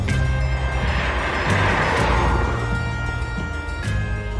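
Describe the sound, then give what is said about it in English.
Inside a Soviet Volga four-door sedan on the move, engine and road noise make a loud, steady rumble. Humming tones drift in and out above it, and there is no speech. “Don't mind us. We're just Volga-ing. The ultimate in Soviet driving luxury. Corinthian leather.”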